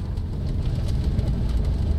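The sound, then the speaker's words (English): A car driving along a rough, bone-jarring road to a tribal village, with passengers bouncing in the back. A continuous low, heavy rumble with a faint rattling texture runs unbroken, and no one speaks. “It's 25 bone-jarring miles from Chief Elmir's office to the Surui tribal village. Our guide Marco drives while we bounce around in back.”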